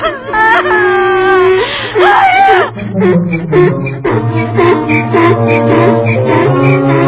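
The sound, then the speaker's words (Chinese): Whimpering, wailing cry from a character in a puppet animation film, a wavering voice that rises and sobs in drawn-out bursts, steady and fairly loud throughout. “哭了，别哭了！”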